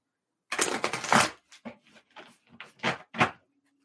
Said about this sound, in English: I'm going to go ahead and pull some cards.